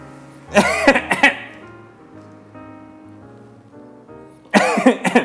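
Coughing triggered by the harsh smell of spicy food: a cluster of harsh, raspy coughs, a quieter stretch with faint voiced sounds, then another burst of coughing at the end.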